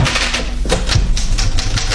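Rapid typewriter keystrokes clatter without pause, a dense run of many sharp strikes at an even, busy pace with no voices.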